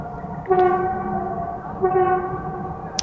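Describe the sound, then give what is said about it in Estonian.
A train passing by sounds its horn in two sustained, harmonically rich blasts over a steady low rumble, with a brief high squeal near the end. “üks rong läheb mööda.”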